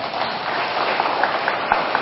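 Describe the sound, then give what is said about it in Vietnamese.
Audience applause following a Buddhist dharma talk about Quan Âm, a steady, even patter of many hands clapping at moderate loudness with a few slightly louder claps standing out. “Có tròn tràng pháo tay.”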